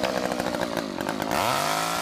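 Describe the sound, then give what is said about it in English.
A chainsaw roars at a Halloween neighborhood haunt on a trick-or-treat night. It buzzes roughly at first, then revs up with a rising pitch and holds a loud, high whine. “People really like the chainsaw. It just scares them enough. Now, a couple times you jump out and you pull the chainsaw and it doesn't fire.”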